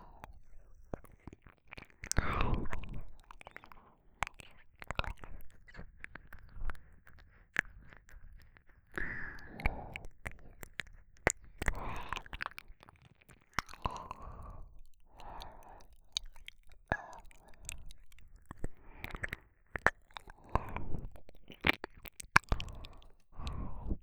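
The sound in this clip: Soft, wet ASMR mouth sounds of nibbling on the left ear come in many quiet, irregular bursts. Faint whispering and breaths surround them.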